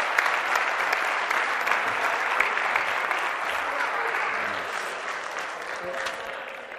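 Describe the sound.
Loud, crowded audience applause keeps up a thick, steady clatter of many hands, then gradually thins and softens toward the end.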